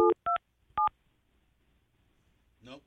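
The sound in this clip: Telephone keypad tones as a number is dialed on a phone: three short, clear beeps, each at a different pitch and separated by brief pauses, followed by a faint snippet of voice at the end.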